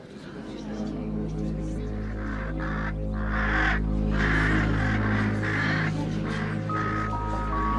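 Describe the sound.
Ravens cawing in a repeated run of harsh, raspy caws over a steady low droning hum, with the calls continuing through most of the stretch.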